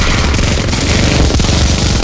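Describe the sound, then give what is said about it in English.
Machine gun fire rattles in a dense, sustained stream of rapid shots, loud and unbroken across the whole stretch, with no talking. “But you distinctly hear a ding of an elevator, and almost immediately there's machine gun fire.”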